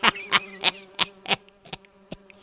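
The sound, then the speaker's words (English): Buzzing of a swarm of flying ants, used as an audio drama sound effect. Sharp, rhythmic buzzing pulses come loud at first, then grow fainter and sparser. “Johnny makes his way onward through the black cloud of insects. Flying ants land on his face and crawl towards his eyes and mouth.”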